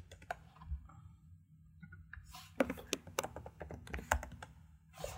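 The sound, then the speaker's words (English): Quiet typing on a computer keyboard, with many light keystrokes clattering in irregular bursts and short pauses between runs of keys. “Type in the Blair Witch. Yeah, there we go.”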